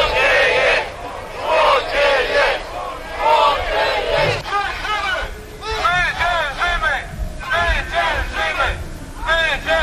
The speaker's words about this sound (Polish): gdzie te demonstracje się odbywają, to właśnie to są odgłosy. Także możemy też oprócz oglądania posłuchać i wczuć się w nastrój takiego tłumu, co oni krzyczą, co oni, czego oni żądają.